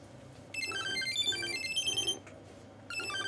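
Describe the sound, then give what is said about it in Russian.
A mobile phone lying on a book on a table plays a melodic, high-pitched ringtone that repeats its tune for about a second and a half, stops briefly, then starts again, loud and with no talk. “У нее звонит сейчас. Мобильный телефон. Он лежит на книге, на столе.”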